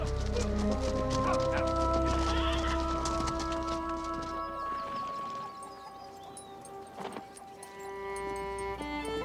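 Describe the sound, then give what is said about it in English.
A posse of horses rides off along the trail toward Raton Pass, hooves clip-clopping in a busy rhythm that is strongest at first and then eases to a lower level. “The posse rides off in the direction of Raton Pass.”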